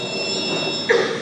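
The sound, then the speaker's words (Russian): An apartment doorbell rings: a brief buzzing tone starts near the end over a steady high-pitched hum that runs throughout. “Хочет взять трубку, но в это время позвонили в квартиру.”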